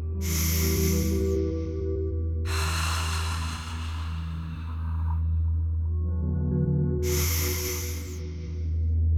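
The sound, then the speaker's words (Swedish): Deep breaths are drawn at the start of a meditation, three long, airy breaths over a steady, low musical drone. “Så börjar vi att ta några riktigt djupa andetag.”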